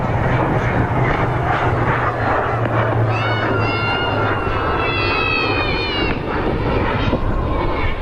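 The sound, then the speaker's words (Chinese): A KJ-500 airborne early warning and command aircraft, an air force plane built on a Y-9 special-mission platform, taxis onto the runway before takeoff. Its engines give a steady, loud roar throughout, with a wavering high whine rising in the middle. “正在滑上跑道的，马上要起飞的是我们空军的绿鹰指挥机空警五百，空军五百。”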